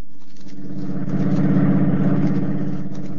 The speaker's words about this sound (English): About a year ago, shortly after his last jailbreak, Thompson and a companion were driving toward Amarillo.